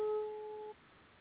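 Ringing tone on an outgoing phone call: a single steady electronic beep lasting under a second, which cuts off and leaves faint line hiss.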